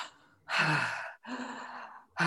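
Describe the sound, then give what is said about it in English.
Deep breaths drawn and released through the mouth: a few loud, airy, rushing breaths follow one another with short gaps, without any speech. “not just to breathe, but to breathe really deep and typically through the mouth. So you're looking at a”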